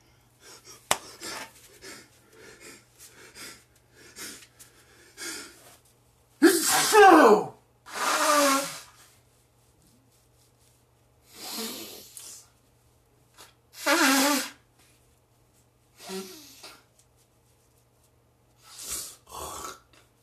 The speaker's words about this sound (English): I apologize for all the sneezing